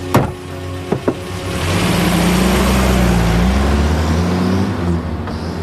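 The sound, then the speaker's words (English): A Range Rover driving off: a few sharp thumps at the start give way to a low engine rumble that swells and holds steady as the vehicle pulls away. “Spencer puts the case in the back of the Range Rover and Jarvis drives off.”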